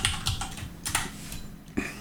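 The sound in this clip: Typing on a computer keyboard while adding a link: quick, irregular key clicks and taps in short bursts, crisp and fairly close, with no voices.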